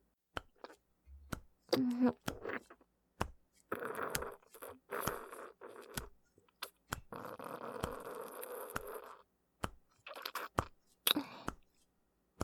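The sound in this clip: Someone takes a mouthful and chews, making soft wet clicks and short crunchy bursts in an uneven rhythm, with quiet gaps between them.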